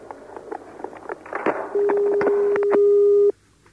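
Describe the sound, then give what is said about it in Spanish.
A telephone ringing tone on a call to a helpline during a radio show: some clicks and clatter, then one long steady electronic tone that cuts off abruptly. “Fantástico Productor, que está llamando al teléfono de la esperanza. ¿Y qué será esa tal esperanza? Vamos a ver.”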